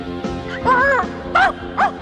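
A dog gives a few short yipping barks and whining cries in separate bursts, moderately loud, with no other sound over them.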